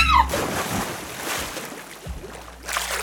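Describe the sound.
Water splashes in a loud, broad rush that surges at the start, eases through the middle, and swells again with another burst near the end.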